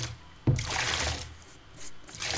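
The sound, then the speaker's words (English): Bath water being swished to froth up bubbles in a tub with ginger-scented bath tea bags: a sharp splash, then several surges of sloshing, swirling water that rise and fall, with no voices. “Just trying to froth up the bubbles.”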